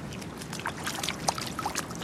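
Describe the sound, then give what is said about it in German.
Faint water sloshes and trickles as a foot is dipped into swimming pool water. Small splashy ripples and drips sound over a soft, steady background. “Man muss am Anfang erstmal einen Fuß ins Wasser stecken, um zu gucken.”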